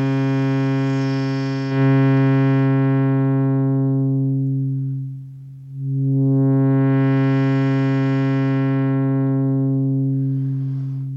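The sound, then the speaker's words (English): A sustained, buzzy synthesizer tone darkens as its low-pass filter closes: the upper overtones fade away until only a dull low hum remains, then the sound brightens again as the filter reopens. It plays alone, steady and loud. “So I'll close the filter, and we'll cut out first the higher overtones and then all of them.”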